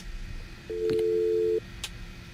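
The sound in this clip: Telephone tone after a dropped call: one steady, mid-low electronic beep lasting about a second, clear above a noisy background hiss.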